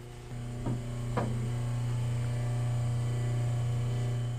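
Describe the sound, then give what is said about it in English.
A small propeller stirrer's motor hums steadily on top of a reaction barrel as it mixes methoxide into oil in a vat. The low, even drone runs throughout, with two brief knocks early on. “there is just a simple little propeller stirrer, and what you hear is that humming sound is the stirrer motor on top.”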